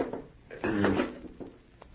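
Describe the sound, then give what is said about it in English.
A safe door being pulled open, heard as a short rattle followed by a louder, drawn-out metallic scrape and creak that swells and then eases off, with a few small knocks around it. “There's a safe behind it. Yes. Now watch. I shall open it and you shall see.”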